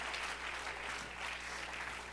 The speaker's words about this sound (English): Let's clap our hands unto him and bless his name.